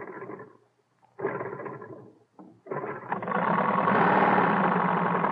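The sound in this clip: An aircraft propeller engine running on benzene is hand-cranked: a few rough sputtering bursts separated by silences, then the engine catches and runs on in a loud, steady, rising roar.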